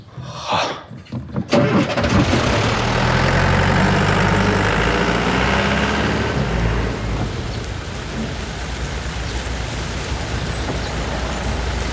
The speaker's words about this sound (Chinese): 开车。